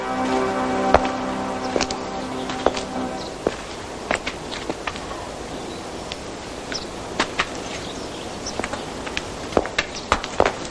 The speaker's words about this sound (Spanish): camina inquieto.